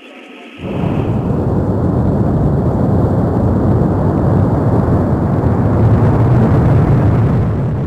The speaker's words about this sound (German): Liftoff für Alexander Gerst, seine amerikanische Kollegin und seinen russischen Kollegen heute in der Steppe von Kasachstan. Vom Weltraumbahnhof Baikonur aus ist die Soyuz-Rakete gestartet